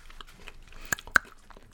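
Crunchy chewing of sweet potato toffee candy with a crisp outer coating: two sharp, loud crunches stand out over softer, steady munching.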